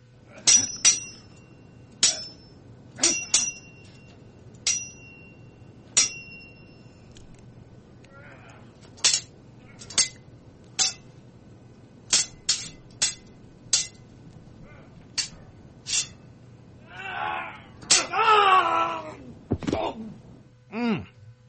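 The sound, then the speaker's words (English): Sword-clash sound effects: many sharp, bright metallic clangs that ring briefly at irregular intervals, with a longer swelling noisy burst near the end. “let's go into some sword ratchetness. Where's my sword ratchet sound effects?”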